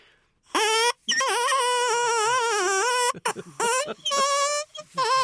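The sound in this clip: A parsnip fitted with a drinking-straw reed hoots with a reedy, buzzing tone. A brief note is followed by a long sustained note whose pitch wavers, and then by several shorter, choppy hoots.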